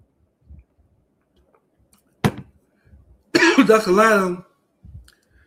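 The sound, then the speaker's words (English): A woman gives one sharp, abrupt cough after something went down the wrong pipe, and then a voice speaks briefly. A few faint mouth and throat sounds are scattered around them in near silence. “excuse me, went on the wrong pipe.”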